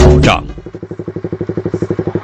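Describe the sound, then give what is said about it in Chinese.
A ridden motorcycle's engine settles into a rapid, even run of many loud, throbbing putts after a brief vocal sound at the start. “我这个骑着摩托车，这个两个轮子也不是很稳呐”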